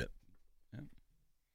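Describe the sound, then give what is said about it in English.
A faint belch, one short, low throaty burst, heard alongside a brief laugh-like burst. “Sorry. And again, that was a laugh and a belch.”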